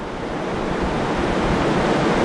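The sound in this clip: A tidal bore's leading waves spread onto mudflats toward a dam. Its steady, dense rushing surf-like roar is loud and even throughout.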